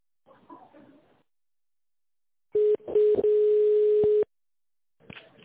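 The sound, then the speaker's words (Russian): Telephone line tone while a call is transferred, a steady electronic tone lasting under two seconds, with brief faint voices before and after it. “Давайте я на него переключу, пообщаетесь с ним, хорошо?”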